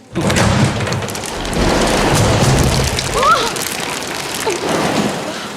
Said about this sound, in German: Ein heftiger Windstoß stößt ein Fenster oben über der Säulenhalle auf. Einige Hagelkörner fallen herunter auf die Gesellschaft